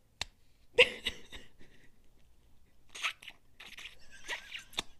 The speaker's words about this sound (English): More ASMR. Oh, yeah. Okay. This used to be filled with juices, like literal Warhead sour juices. All right. Let me bring back some childhood memories.